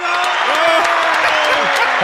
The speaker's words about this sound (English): We got the crowd noise in the back.